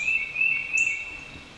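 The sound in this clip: Bird calling played from a meditation timer: a steady, shrill, high-pitched trill that runs through the whole stretch, with a brief, higher chirp near the middle.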